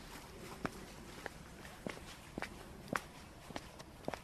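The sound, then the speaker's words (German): Footsteps walk along an outdoor path. The steps are faint and evenly paced, each a soft, crisp tap over a quiet background. “dann gehen wir mal einfach über den Zukunftsweg,”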